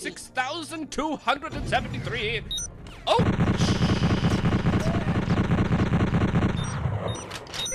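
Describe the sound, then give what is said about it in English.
Rapid gunfire in a video game: a voice talks briefly at first, then a dense, continuous burst of fast shots rattles on loudly for several seconds. “Oh! I'm being shot.”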